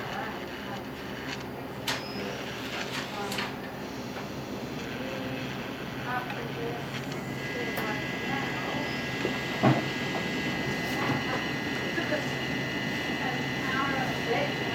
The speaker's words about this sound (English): That's just the noise. From the bow thruster or something.